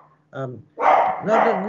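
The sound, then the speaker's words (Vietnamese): A pet dog in a house barks in two bursts, a short one followed by a longer, louder stretch of harsh barking. “Xin lỗi, nhà có con chó nó sủa khi nó khác.”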